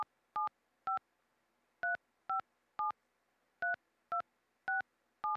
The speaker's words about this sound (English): Please enter your 10-digit phone number.